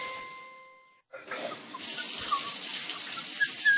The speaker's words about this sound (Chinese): 看见有那个水龙头不关的哗哗流的心疼啊啊！